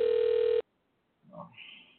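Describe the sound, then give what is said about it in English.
A steady telephone tone sounds while a call is being dialed. It holds for about half a second, then cuts off abruptly into silence, followed by a few faint, brief sounds. “We're going to dial this, get her on the line here.”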